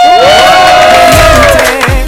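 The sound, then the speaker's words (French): A studio audience at a TV show cheering and whooping, loud and continuous, a dense crowd roar with shouts on top throughout. “Et ce soir, on a du public”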